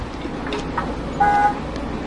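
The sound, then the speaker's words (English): A single short horn toot, one steady high beep lasting about a third of a second, sounding over a faint, even background hiss with no other notable events. “Honk, honk, honk.”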